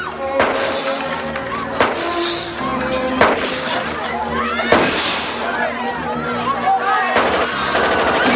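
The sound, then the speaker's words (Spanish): Gunfire from thugs shooting out of a casino: several sharp, loud bursts with glassy shattering cut through a dense, continuous background of other action sounds. “Los matones disparan desde el casino.”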